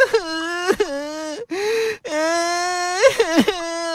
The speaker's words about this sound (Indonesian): Geppetto mendengar suara anak kecil menangis